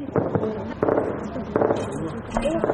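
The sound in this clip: Gunfire crackles at night in the areas around Tarinkot city, Afghanistan, during armed Taliban attacks on security posts: several clusters of sharp bangs and pops come in quick bursts over a steady background.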